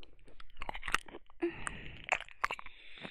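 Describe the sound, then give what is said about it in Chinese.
Faint biting and chewing of soft food, with a few irregular soft squishes and small crunchy clicks that come in quick, uneven bursts with brief pauses between them. “这么软的话，要不要再多咬一口？”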